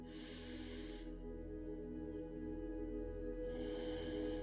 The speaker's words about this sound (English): let's take a nice big deep breath together.